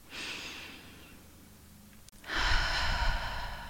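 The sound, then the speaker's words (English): A slow, airy inhale followed by a louder, fuller exhale, paced as a deliberate breathing exercise during a mantra practice, with a quiet pause between the two breaths and no talking. “Inhale and exhale.”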